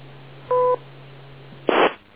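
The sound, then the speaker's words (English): A short, steady two-tone electronic beep from an amateur radio repeater. A single beep is followed by a brief, harsh burst of noise, both over a constant low hum. “Wait for the beep.”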